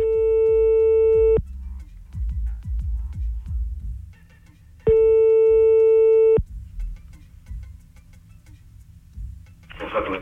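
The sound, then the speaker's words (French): Two long, steady ringback tones sound on an outgoing phone call, each about a second and a half with a pause between, over a low rumbling background bed and a short noisy burst near the end. “Hein, là, du coup, on appelle un autre.”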